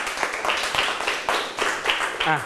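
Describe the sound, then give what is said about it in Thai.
Hand clapping comes as a steady series of separate, sharp claps at an even pace, fairly soft, with a brief voice at the very end. “เก่งมากปรบมือให้ตัวเองหน่อยตอบถูกหมดทุกข้อเลย”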